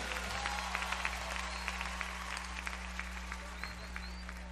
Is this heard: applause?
yes